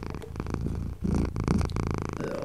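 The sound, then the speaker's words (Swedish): A cat purring, a low, steady rumble with a fine rhythmic pulse that continues throughout at fair loudness, with no voices. “han spinner. Ja, lyckan är en varm katt i famnen.”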